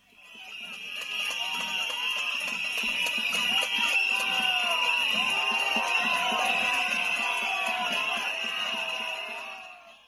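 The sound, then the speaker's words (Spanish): Dense, piercing whistling from a protest crowd jeering Azcón in Huesca, many shrill whistles sustained together over crowd noise, swelling in at the start and fading out at the end. “Y lo que estáis escuchando es la imagen del día, una pitada Azcón en Huesca.”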